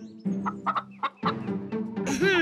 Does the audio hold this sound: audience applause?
no